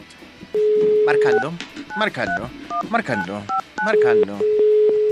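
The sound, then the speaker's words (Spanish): Telephone keypad tones as a number is dialed: a steady tone and a few short beeps sound under continuous talking. “Marcando.”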